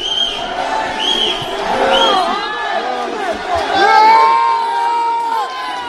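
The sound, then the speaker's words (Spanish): Crowd cheering and shouting in Paris as Lionel Messi joins Paris Saint-Germain, with loud whoops and high shrieks rising over a dense roar that swells and eases throughout. “Y esta es la tónica de todo el día, locura desatada en París, gracias a Leo Messi, la nueva estrella del Paris Saint-Germain. El sonido en directo de París con Messi.”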